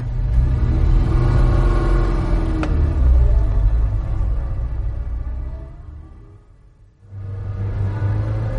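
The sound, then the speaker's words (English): A car driving along, its engine giving a steady low rumble that fades briefly near the end, then comes back at full strength. “Drive round for a while”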